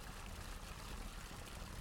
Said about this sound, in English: There are a couple of spouts, so it'll fill up even faster now.